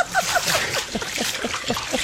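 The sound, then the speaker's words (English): Water splashes and sloshes as someone sits down in a tub of water, with a few irregular, fairly loud splashing bursts spread over about two seconds. “while I sit down in a tub of water”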